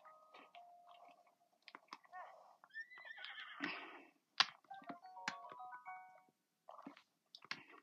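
Horse whinnying in a Zelda video game: a faint, wavering neigh among soft clicks and light thuds, all quiet and without talk.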